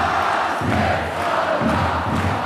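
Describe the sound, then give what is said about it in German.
A steady roar of standing basketball fans in an arena hall late in a game, a loud continuous mass of voices with singing mixed in. “Die Fans stehen, die Fans klatschen und singen tun sie natürlich auch.”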